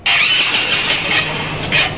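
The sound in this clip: A motorbike engine fails to start, its starter cranking repeatedly without catching. The grinding whir is steady and carries faint regular pulses throughout.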